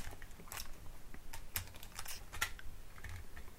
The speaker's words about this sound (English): Okay, hold on just a second. I'll flip this tape.